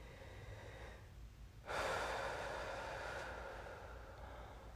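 Slow breathing during a guided visualisation exercise, heard as a soft, drawn-out breathy rush that starts after a quiet pause and fades gradually over a few seconds, faint and with no talk.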